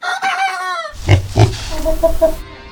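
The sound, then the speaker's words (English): Farm animals on a farm in Vermont: a drawn-out animal call, then two deep pig grunts and a few short, higher calls, fairly loud and without talk. “In case it's not yet clear, But Why is headed to the farm, specifically Billings Farm and Museum in Woodstock, Vermont”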